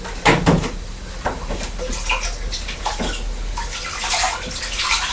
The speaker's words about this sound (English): Let's all wash your face as well, haven't we?